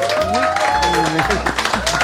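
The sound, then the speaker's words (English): Applause from a crowd for a guest at Petorino's restaurant in Chicago, a brisk wash of clapping running through the short clip under a speaking voice. “a round of applause for this guest.”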